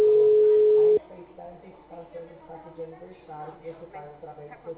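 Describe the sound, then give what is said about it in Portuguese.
A telephone dial tone heard while placing a call, a steady single-pitched tone that holds loudly for about a second, then cuts off abruptly as quieter sounds follow. “Tô ligando. O número chamado encontra-se.”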